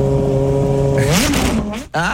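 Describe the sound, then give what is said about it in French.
A moped engine revs hard: a steady, buzzing drone holds for about a second, then its pitch climbs and turns rough before briefly dropping out and returning near the end. “C'est une super mobilette en fait. Ah, elle est super énervée.”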